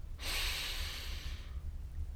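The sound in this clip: A deep breath drawn slowly, heard as a soft, airy rush that holds steady for over a second and then stops, followed by quiet.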